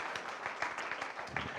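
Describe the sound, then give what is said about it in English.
Audience applause at an Easter Sunday service: a brief, quiet patter of many hands clapping at once. “Round of applause for Santa.”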